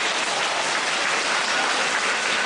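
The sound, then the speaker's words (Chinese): Applause from an audience, a dense and steady wash of many hands clapping at an even loudness from start to finish, with no voices over it. “对对对对对， 鼓掌！”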